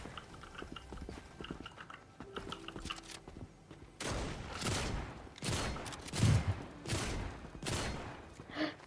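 Gunfire from a computer-controlled bot in a ranked solo video game match: a series of sharp, loud shots in uneven bursts that begin partway through, after a stretch of quieter game sound.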